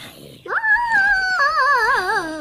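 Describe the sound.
Whining howl of a wolf in Minecraft: a single drawn-out tonal cry that rises at the start, holds for about two seconds, then wavers and bends in pitch toward the end.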